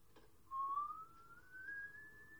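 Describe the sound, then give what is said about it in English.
A person whistles a single long, quiet note that slides gradually upward in pitch. No other sound accompanies it. “That's method whistling at its finest.”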